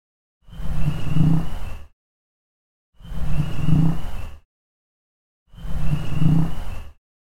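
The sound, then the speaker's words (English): A bullfrog call played three times, each a low, droning, roar-like croak lasting about a second and a half, separated by silence. “So that part ends with a bullfrog pretty prominently, and I'll just go ahead and play the bullfrog 3 times.”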